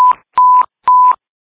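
Fire dispatch paging tones ring out as three loud, evenly spaced electronic bursts. Each holds a steady pure beep and then ends in a short, buzzier tone, with no voices.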